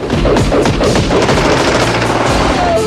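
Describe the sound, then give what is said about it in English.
Heavy gunfire during a fight around a village: dense, continuous rapid bursts mixed with booming shots, loud and unbroken throughout, with no voices. “Under heavy fire, Joey flees.”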